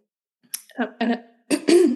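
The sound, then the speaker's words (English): A person clearing the throat in a few short, rough, voiced bursts, some clipped and some drawn out, fairly loud and heard alone. “I'm not crying, I just have stuff in my throat. You're clearing stuff as you talk.”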